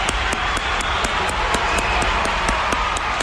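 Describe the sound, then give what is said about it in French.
Audience applause and cheering for health-sector union workers during a standing ovation on a talk show. Dense, loud clapping holds steady throughout, with a quick, regular run of sharper claps cutting through the crowd noise. “On applaudit Nancy Bédard encore et tous les syndicalistes du travail de la santé. Oui. Bravo. Debout tout le monde. Debout.”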